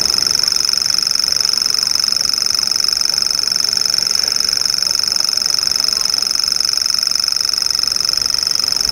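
A common grasshopper warbler sings at dusk: a continuous, rapid, high-pitched reeling trill, mechanical and insect-like, held steady and unbroken throughout with no voices.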